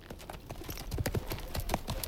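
Horse hooves of riders travelling at night, many sharp clip-clop strikes in an uneven, trotting rhythm, moderately loud and without talk.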